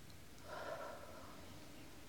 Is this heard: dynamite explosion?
no